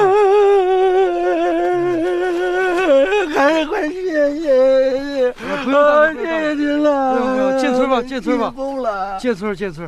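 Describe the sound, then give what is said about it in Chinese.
An older man crying, with a loud, sustained sobbing wail whose pitch wavers and quivers throughout, breaking into shaky, uneven bursts near the end. “大叔，别哭了，大叔别哭了”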